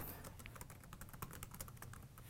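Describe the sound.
Faint, rapid typing on a computer keyboard, with quick, irregular key clicks running throughout.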